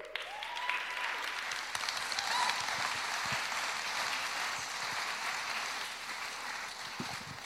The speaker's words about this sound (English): please put your hands together and give a big Coastline welcome to Anthony and Emily Orman